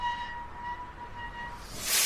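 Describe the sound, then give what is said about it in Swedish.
Train arriving at Stockholm Central Station, a low rumble with intermittent high squealing tones and a hiss that swells toward the end. “En man i ljusbrun bläser kliver av ett tåg på Stockholms centralstation.”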